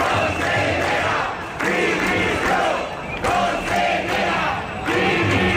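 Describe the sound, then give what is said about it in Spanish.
Crowd chanting at a street demonstration of striking public-school teachers and families in Valencia: loud, continuous massed voices in rhythmic chanted phrases, with brief dips between phrases. “La ciudad ha vivido una nueva manifestación en el marco de la huelga de profesores de la educación pública en la comunidad.”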